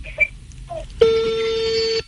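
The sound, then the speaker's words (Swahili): A telephone rings with one steady, bright electronic tone lasting about a second, after a few faint brief sounds. “Bad simu inaita.”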